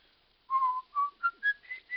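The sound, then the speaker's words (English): A person whistles a song in six clear, quiet notes, the first held longest and the rest shorter, climbing steadily higher in pitch, with nothing else heard. “Why'd you whistle that song so much?”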